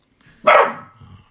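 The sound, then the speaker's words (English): A dog gives a single short, loud bark, followed by a faint, brief trailing sound. “Sorry, that's my dog, needless to say.”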